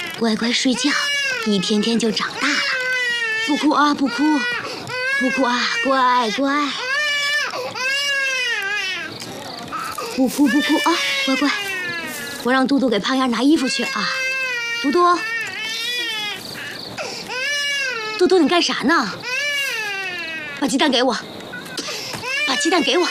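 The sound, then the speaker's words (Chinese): An infant cries in repeated, wavering wails during a wartime village escape, loud and continuous, while a woman's voice talks over the crying. “乖乖睡觉，一天天就长大了。不哭啊，不哭，不哭啊，乖乖。”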